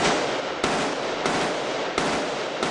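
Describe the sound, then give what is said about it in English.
Automatic rifle fire in bursts: a loud, dense, crackling roar of rapid shots that runs almost without pause, with a few sharp fresh bursts breaking through the steady racket. No voices are heard. “Firing an automatic weapon is not easy. The bullets want to climb up and out of the target area the longer you hold the trigger.”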